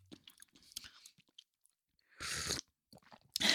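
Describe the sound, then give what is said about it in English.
Crunching of ginger nut biscuits being eaten with tea: two loud, dense bites of crisp crunching stand out among faint scattered clicks and mouth sounds, with no talk. “We're eating, we're having, by the way, we're having peppermint tea and ginger nuts. I better not. That was going to sound so loud.”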